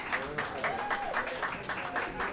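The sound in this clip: A bar audience claps for a live band in a steady, rhythmic beat, with a voice carrying over the clapping.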